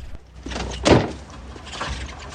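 A car boot lid opening gives one solid clunk about a second in, broad and brief, over a low steady rumble with no talk.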